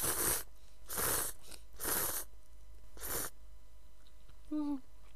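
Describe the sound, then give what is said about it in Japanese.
Noodles slurped from a bowl of soup with egg: four loud, noisy slurps with short pauses between them, each a broad rushing burst, heard alone with no talk. “まずはスープから。おいしい。卵入ってる。では麺を。”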